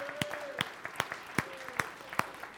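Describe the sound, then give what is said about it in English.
Rhythmic clapping from a church audience celebrating, crisp claps landing on a steady even beat with lighter claps between them, fairly quiet overall. “So celebrate that with me today, right? Can you clap?”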